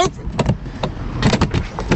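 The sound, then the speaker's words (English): A car's electric back window being opened, heard as a low motor hum with a series of irregular knocks and bumps over about two seconds. “I'm opening the back window and I'm gonna go to work!”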